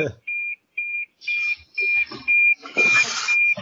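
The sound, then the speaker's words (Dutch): Fire alarm beeping: seven short, shrill, high-pitched beeps in a brisk, steady rhythm, with people talking underneath the later beeps. “Brandalarm.”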